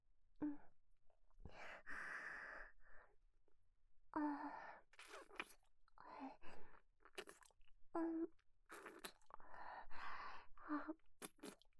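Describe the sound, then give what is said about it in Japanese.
Chewing on a final mouthful of rice, a steady run of soft, moist crunching bursts with brief pauses. The chewing is faint and continues throughout, with no talk over it. “ではまたご飯の方をって、もうこれが最後の一口ですね。では心を込めて、”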